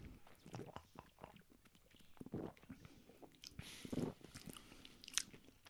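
Someone bites into and chews a salty, malty delicatessen food from a Meerbusch deli, making faint, irregular crunches and moist mastication sounds with no speech.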